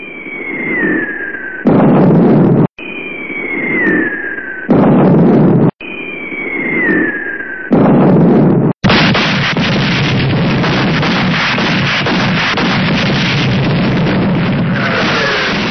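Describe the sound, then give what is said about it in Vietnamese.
Wartime bombs dropped on a road junction explode: three times a falling whistle is cut off by a loud, harsh blast, then a long continuous roar of heavy explosions rumbles on without a break. “Bom nổ ngất trời, đất lại chuyển rung, khói bụi mù mịt, trời đất tối sầm lại.”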